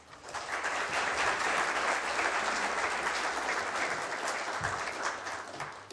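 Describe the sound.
Dense audience applause welcoming a speaker to a morning architecture talk at the Sydney Architecture Festival 2018, a steady wash of many hands clapping that holds at an even, full level for several seconds.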